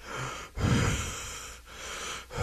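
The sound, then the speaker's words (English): Heavy breathing from a person who has just walked up stairs: a few long, noisy breaths, fairly quiet, rising and falling in an uneven rhythm. “My breath in the background.”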